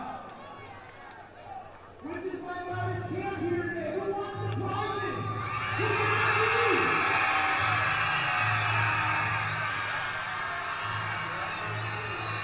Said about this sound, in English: Spirited crowd. You know, Lake County, not a great place to catch some shut-eye.